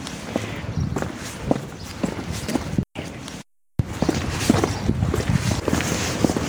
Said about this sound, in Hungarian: Na hát most már itt sétálunk a Pajk utcának a hársfa során